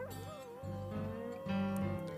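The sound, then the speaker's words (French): A dog whines and howls on a 1971 rock album track, a wavering cry sitting fairly faint within the sustained band music. “un chien qui fait wawa. C'est ça, le chien que vous entendez”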